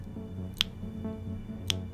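Two quiet, sharp tongue clicks made for echolocation, evenly spaced about a second apart, each crisp and very brief over a low, steady background hum.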